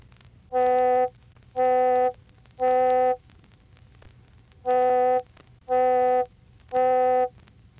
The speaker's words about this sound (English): But if we emphasize the overtones in the region of 500 and 800 cycles per second, it sounds like this.